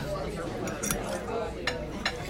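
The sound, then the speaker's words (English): Cutlery mixes cheesy food with sauce in a dish, making soft scraping and a few light clinks against the dish over a steady low background. “I'm just mixing it up, seeing the cheese mix, smushing it around, playing with my food.”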